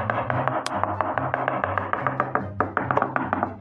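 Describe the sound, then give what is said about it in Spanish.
A knife chops cucumber on a cutting board in quick, even strokes. Many crisp taps follow one another in a steady rhythm over a faint low hum. “Vamos ahora a picar el pepino.”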